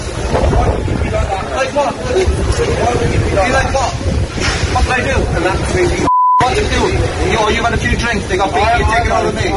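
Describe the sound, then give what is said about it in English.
A single brief, steady censor bleep cuts over a word in a played recording of people talking over loud rushing background noise. “There's a bit beeped out in that”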